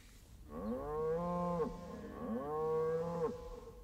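Cattle mooing: two long, loud, drawn-out moos, each lasting about a second, separated by a short pause. No voices are heard.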